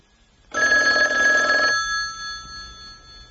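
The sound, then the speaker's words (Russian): A single telephone ring: a bright, buzzing ring that starts abruptly, holds loud for about a second and then fades into a lingering tone, with no voices. “Меня нет дома. Ответь ты, и я возьму отводную трубку”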